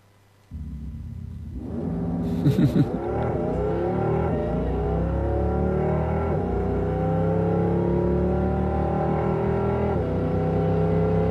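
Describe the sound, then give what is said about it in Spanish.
Simulated engine sound of a Porsche Taycan electric car, made to mimic eight gear changes: an abrupt start, then loud revving tones that rise and shift before settling into a sustained, steady drone. “Y Porsche lo que acaba de presentar es algo artificial, que es simular 8 marchas en el Porsche Taycan. O sea, solo el ruido. Solo el ruido. Si quieren, lo escuchamos ahora.”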